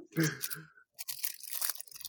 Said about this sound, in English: As I open a fortune cookie, I haven't had a fortune cookie from Panda Express in months on end.